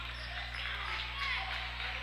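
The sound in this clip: A basketball is dribbled during an Exeter versus Red Lion boys basketball game. The bounces are faint and muffled, sitting under steady background noise and a constant low hum.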